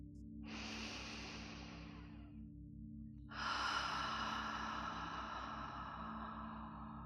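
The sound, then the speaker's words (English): Slow, deep cleansing breaths taken at the start of a guided meditation: two long airy breaths, the second louder and longer, heard alone over a soft, steady low drone. “Take a deep cleansing breath where you are.”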